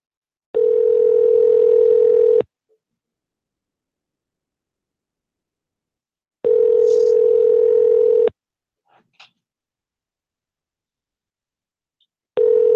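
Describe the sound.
A telephone tone while placing a call: a steady mid-pitched tone in two-second bursts separated by about four seconds of silence, two full bursts and the start of a third, with faint clicks in one gap.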